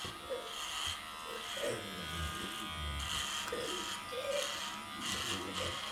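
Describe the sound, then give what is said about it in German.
Electric clippers buzz steadily while shaving a patient's head, a low, continuous drone that swells and eases slightly as the blades move. “Private Barker beginnt damit, dem Patienten den Kopf zu rasieren.”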